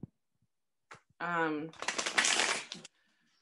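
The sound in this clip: Tarot cards being shuffled, a single dense riffling burst of rapid papery flutters lasting about a second, just after a brief vocal sound.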